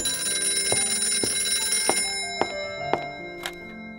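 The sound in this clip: A telephone rings with a steady, high, tinny bell tone. A few sharp clicks cut across it at moderate volume, with no voices.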